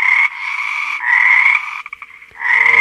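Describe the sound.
A frog croaks in loud, long, rasping calls, each held for a moment with brief gaps between. Near the end the calls break into a quick stuttering run of short pulses, then one more sustained croak.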